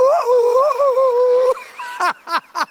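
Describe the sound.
A voice imitates dogs howling: a long, high, wavering howl that holds steady, then breaks into three short, sharp yelping cries, loud and alone.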